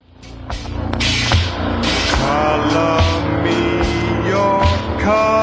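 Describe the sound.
A sped-up chipmunk-voice cover of a new wave pop song played back at 16 RPM, so the singing and backing music come out slow, deep and dragging in a continuous loud stretch.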